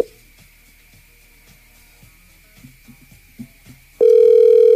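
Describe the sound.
An outgoing telephone call to a radio listener: a few seconds of faint low noise and light clicks, then a loud, steady, low-pitched ringing tone starts abruptly and holds to the end.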